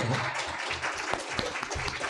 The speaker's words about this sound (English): Cindy, did you say they can applaud now? Okay, Cindy said you can applaud now.